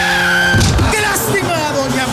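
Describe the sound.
Sound effect of a minibus skidding on an avenue and striking a pedestrian: a high tyre screech, then a sudden burst of noise as the squeal continues, with talk over it.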